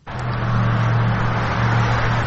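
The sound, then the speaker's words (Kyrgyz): Steady car engine and road noise fills streets in Saudi Arabia, a constant low hum with broad rushing traffic sound held at an even level from start to finish. “Сырттан карасаңыз, Сауд Арабиянын көчөлөрүндөгү автоунаа кыймылы дүйнөнүн башка өлкөлөрүнөн дээрлик айырмасы жок. Көнүмүш унаалар, көнүмүш тоуштар.”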